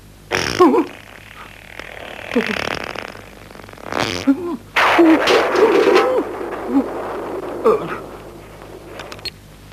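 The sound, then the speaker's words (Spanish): Raspy farting noises from people, outdoors at night under the stars, come in several uneven sputtering bursts, including a longer, buzzing run in the middle, loud against a quiet background. “¿Nos has oído tirar pedos desde arriba?”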